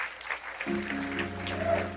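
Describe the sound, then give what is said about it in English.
Audience applause welcomes speakers onto the stage at a B2B marketing event, a soft, even patter of clapping with a sustained tonal sound joining partway through. “Help me put your hands together and welcome them to the stage.”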